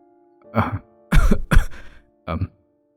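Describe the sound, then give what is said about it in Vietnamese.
A thin, pale, sickly man coughs and clears his throat in four short, harsh bursts, with the middle two close together. They come alone over a faint steady hum. “Thấy người anh ốm o đi, còn xanh xao mà chốc chốc lại ho húng hắng”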